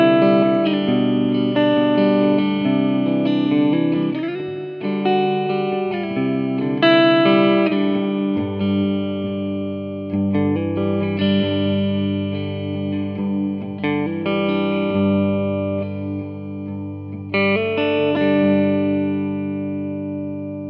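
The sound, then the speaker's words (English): Sustained, distorted instrument notes and chords ring through an arena reverb effect setting with a quick attack and short decay, forming a loud, steady, continuous run of tones with no talk. “This is going to be the arena setting.”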